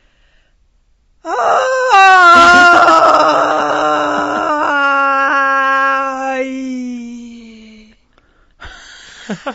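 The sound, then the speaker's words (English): A voice imitates a loud, distracting sigh of someone checked out in class: one long, moaning exhale that slides slowly downward in pitch over several seconds, then a brief, fainter vocal sound after a pause. “there is someone who's completely checked out and will let out a sigh that distracts the entire class. And the class usually giggles and laughs, but the sigh sounds something like this.”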